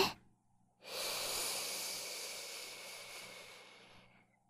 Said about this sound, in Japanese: そのままもう一回、深呼吸をしよっか。吸って、